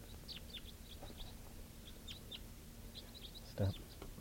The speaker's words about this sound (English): That was a type 4 wild male. And now the whole flock has come up. It's starting to mix around here.